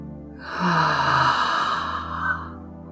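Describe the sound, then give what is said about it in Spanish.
A full exhale through the mouth during a breathing exercise: one long, breathy rush of air that swells quickly, holds for about two seconds and then tapers off, with no talking. “De donde estés, exhala completamente todo el aire por la boca.”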